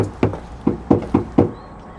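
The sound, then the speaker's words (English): Knocking on an apartment door: five dull, solid knocks, a single knock followed by a pause and then four evenly spaced raps, loud and alone. “he walks up some stairs, then knocks on the door of Unit 206.”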